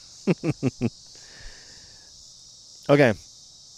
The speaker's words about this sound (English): We have some lovely background noise music. It's music. I didn't know we had cicadas out here.